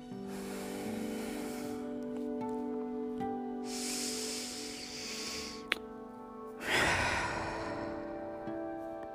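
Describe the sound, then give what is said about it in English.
Deep breaths taken at the start of a guided meditation, heard as two long, airy, hissing exhalations. They rise over a quiet, steady musical drone that plays throughout. “We're going to take a few deep breaths just to begin to quiet our minds and our nerves.”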